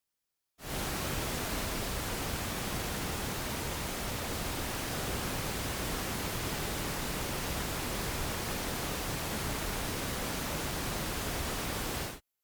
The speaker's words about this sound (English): For review, here is wideband random noise spanning the entire audible range of frequencies.